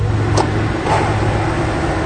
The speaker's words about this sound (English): That's the H2, the latest in General Motors' popular line of Hummers.